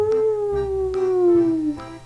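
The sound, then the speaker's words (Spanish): A long howl from hungry wolves: one sustained, mid-pitched wavering tone that slides gradually lower over about two seconds, with a few faint clicks underneath. “Los lobos aullaron buscando un bocadillo. Estaban hambrientos. Se notaba por sus aullidos que querían comer.”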